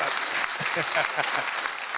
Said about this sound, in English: I want you to give a round of applause, ladies and gentlemen, for her being on the network.